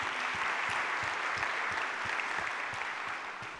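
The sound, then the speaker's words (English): Sustained applause from a church audience during a five-year anniversary celebration service. The clapping is even and dense, then tapers slightly toward the end without any talk over it. “And so at that time, yeah, you can applaud that.”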